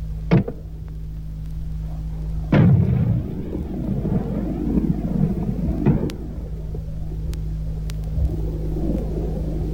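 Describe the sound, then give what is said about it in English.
An M40A1 106 mm recoilless rifle firing: a few sharp, heavy blasts, each trailing into a long, rolling low rumble that lingers beneath a steady hum. “The M40 A1 106 millimeter recoilless rifle.”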